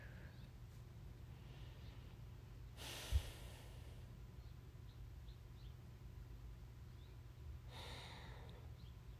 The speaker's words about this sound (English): Start to breathe in and out through your nose.